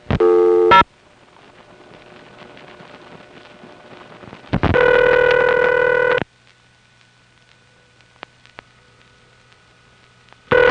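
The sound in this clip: A telephone dials zero for the operator: brief tones at the start, a longer steady multi-tone burst midway, a couple of sharp clicks, and another tone at the end, over a faint background hiss.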